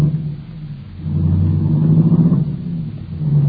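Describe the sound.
A car engine pulls away: a low idle gives way to a louder, rising mid-pitched rev that holds before easing back slightly, alone with no voices.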